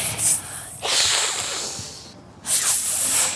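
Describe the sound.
A human voice imitates a snake's hiss, as heard near a snake hole: a few breathy, high hissing bursts, each held for about a second with short gaps between, with no talking.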